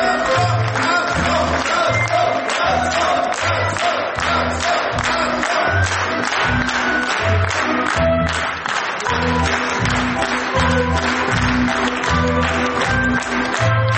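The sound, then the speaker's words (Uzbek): Theatre audience applauding the director on stage at the end of a performance: loud, dense clapping that holds steady throughout, with a regular low pulse beneath it. “Sahnaga chiqqan rejissor Jo'rabek Ro'zmetov guldasta va olqishlar nishoniga aylandi.”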